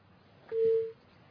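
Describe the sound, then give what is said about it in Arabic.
A phone call cuts off into a single short, steady busy-tone beep at a fixed pitch, standing out over a faint low background hum. “الاتصال انقطع”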